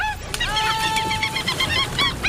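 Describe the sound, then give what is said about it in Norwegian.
Seagulls cry in a dense run of short, harmonic squawks, with one longer steady note stretched through the middle, all fairly loud against a noisy background. “Ja, det må jo være noen fugler da. Er det måkeskrik? Ja.”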